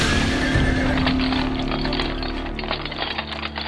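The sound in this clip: A horse pulling a carriage gives a drawn-out, loud whinny at the start, then steady clip-clop of hooves carries on to the end.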